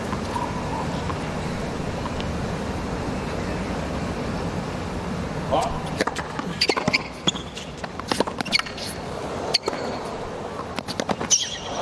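A table tennis ball is hit back and forth in a rally: many sharp, quick clicks in an irregular rhythm. They are sparse at first and come thickly in the second half, over a steady background hiss.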